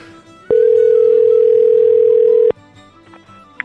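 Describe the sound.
Telephone dial tone before a call is placed: one steady, unbroken tone lasting about two seconds, followed by quiet and a faint click.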